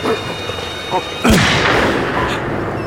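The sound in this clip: A single loud gunshot fired at a pack of black-furred animals in falling snow: one sharp, heavy blast that rings out and slowly decays.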